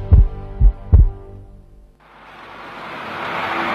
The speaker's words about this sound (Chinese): 听见你的心跳